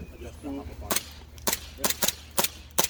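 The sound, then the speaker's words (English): A Novritsch airsoft pistol, fired for the first time out of the box, lets off six sharp cracking shots in an uneven sequence, with short gaps between them. A brief murmur of voice comes before the first shot. “So go ahead and run a full mag through that one just for practice.”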